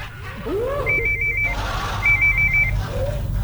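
An old telephone rings in two short, bright bursts of rapid bell trilling separated by a brief pause, over a low steady hum.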